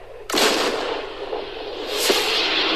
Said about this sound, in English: Artillery!